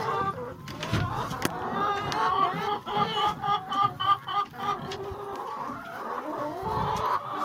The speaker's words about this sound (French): Allez les poupoules